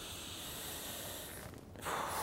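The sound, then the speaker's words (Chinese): Faint, shallow breathing made incorrectly with the neck muscles gives a continuous soft hiss, then a brief pause and a sharper, louder intake of air at the end. “这个呢，我们通常会讲这个叫做警示呼吸。这叫警示呼吸。那我们吸气的时候是用脖子的力量在呼吸。”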